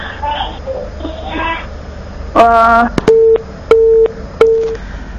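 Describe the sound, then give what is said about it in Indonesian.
After a phone call drops, people talk before a buzzy tone cuts in, followed by three short, evenly spaced, mid-pitched beeps of a disconnected-line signal. “Halo, Umud, mohon maaf, sepertinya terputus sambungan teleponnya dan kami belum bisa menangkap pertanyaan secara utuh”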